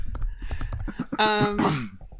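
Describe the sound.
Typing on a computer keyboard: a quick run of light key clicks, then a voice cuts in over the tapping.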